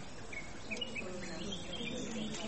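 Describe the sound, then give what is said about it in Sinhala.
Birds calling outdoors: a few short, high chirps that stand out faintly over a steady, quiet insect-like buzz, with no talking. “කුරුල්ලෝ කෑ ගහනවා.”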